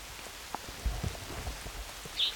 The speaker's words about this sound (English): Raining.